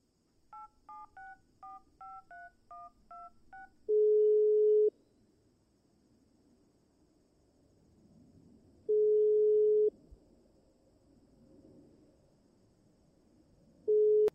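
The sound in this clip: Telephone dialing for a call: a quick run of short keypad tones at changing pitches, then a steady ringing tone that sounds three times at even intervals, each lasting about a second, with near silence between.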